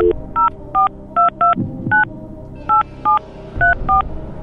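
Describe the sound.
A telephone is dialed to call a radio listener: a string of short, evenly pitched touch-tone beeps sounds in an uneven rhythm over a low background hum, with no talk.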